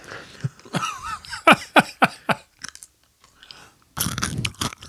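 Someone chews Halloween candy: loud, crisp crunches come in a quick run of bites, then the mouth goes nearly quiet before a final dense burst of crunching.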